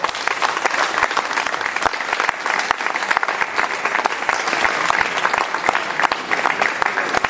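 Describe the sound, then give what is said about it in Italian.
A crowd applauds loudly in a town square, many distinct hand claps merging into a dense, sustained roar that stays strong and steady for the whole stretch. “Mi piacerebbe che da questa piazza venisse un forte applauso”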